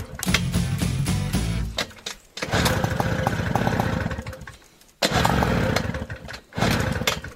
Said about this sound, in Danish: sådan en gammel puk kan godt være lidt følsom og vanskelig at få i gang.